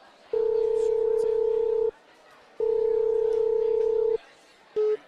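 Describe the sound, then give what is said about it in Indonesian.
Telephone ringback tone as a call is placed: two long, steady, even beeps separated by a pause, followed by the clipped start of a third, loud and clear over a faint background hiss. “Wait ya, aku coba telepon.”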